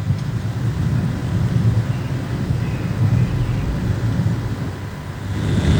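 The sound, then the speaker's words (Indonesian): A ceremonial vehicle pulls up before the honor podium at the Indonesian military's 81st anniversary parade to carry President Prabowo for inspection, a low, steady engine rumble under broad, wind-like noise that swells slightly near the end. “tampak di depan podium kehormatan sebuah kendaraan yang akan membawa Inspektur Upacara Presiden Prabowo”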